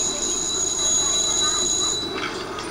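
Train wheels squeal as a train moves along the rails. A sustained, piercing high-pitched screech rides over a steady rumble, then cuts out near the end while the rumble continues.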